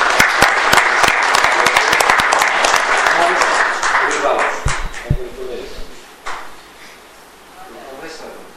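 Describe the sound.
Audience applause congratulating a poster prize winner at a scientific meeting, loud dense clapping that gradually thins out and fades after about five seconds, followed by quieter talk.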